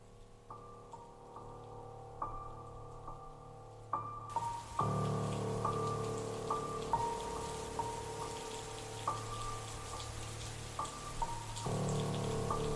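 A summer rain shower falls as a steady hiss of rain that thickens a few seconds in, with sustained tonal notes running over it throughout.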